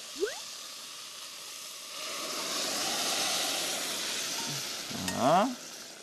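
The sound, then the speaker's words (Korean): Anchovy broth is strained and poured into a pot of soup with fried tofu. A soft, steady hiss of liquid swells and fades, with a brief clatter near the end. “육수를 넣어 보겠습니다. 아, 육수를 네. 자, 멸치를 걸러줘야 되니까 제가 받쳐 볼게요.”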